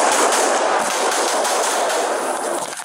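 Gunfire captured on police body camera footage as two officers take incoming fire right after arriving on scene: a loud, dense, sustained roar of shots that runs unbroken for the whole stretch, too rapid to count, easing slightly at the end.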